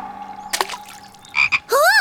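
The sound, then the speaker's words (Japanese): Frog croaking by an old pond, a few separate calls: short raspy croaks, then a longer harmonic call that rises and falls in pitch, fairly loud and alone. “本物のカエルだよ。ナイスタイミングだね。”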